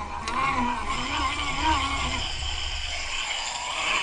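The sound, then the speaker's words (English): A hand-cranked generator whirs as it spins up a gyroscope, a steady mechanical drone with a high whine that holds at an even loudness throughout. “So I'm just going to spin the generator manually to get the gyroscope spinning first. So I'm going to start that now. And you hear the generator going.”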